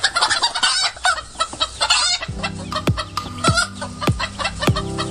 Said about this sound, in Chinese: 一身黑羽红冠活成了山的一部分，它叫三峡黑鸡。